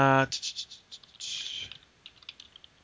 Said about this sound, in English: So, I should really write these down before I do a thing.